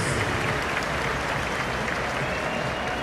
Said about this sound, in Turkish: Alkışlarla oyundan çıkıyor.